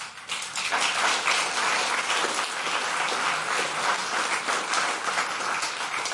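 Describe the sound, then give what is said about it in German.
A packed hall audience at an evening forum in a rooftop lounge in Berlin applauds: dense, steady clapping from many hands, holding at an even level for several seconds. “Und Sie hören es, der Saal ist rappelvoll.”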